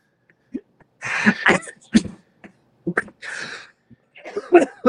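A drunk man coughs and clears his throat, complaining of dirt in it: a few loud, rough, breathy bursts with short gaps, alone with no talk.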